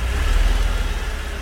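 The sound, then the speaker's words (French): Car engine running as the vehicle comes to pick someone up, a low, steady rumble with slight pulsing throughout and no voices over it. “Oh vache, ça c'est la bagnole. Regarde.”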